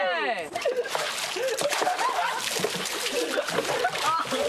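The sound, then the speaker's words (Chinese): Several people splash water while bathing. Continuous sloshing and splattering runs throughout, and voices talk over it. “你们几个这样洗澡，当心感冒哈！”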